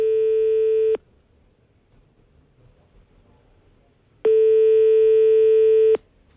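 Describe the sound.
A telephone ringback tone sounds while a call is placed to the gendarmerie: two long, steady, level tones, each about a second long, with a quiet gap of a few seconds between them.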